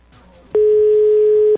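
A telephone ringback tone sounds on an unanswered call to a radio station studio: a single loud, steady, mid-pitched tone lasting about a second, following a quiet stretch.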